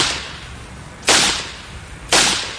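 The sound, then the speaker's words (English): Two loud gunshots ring out about a second apart, each a sudden sharp crack followed by a long, decaying tail, with no voices. “He shot him.”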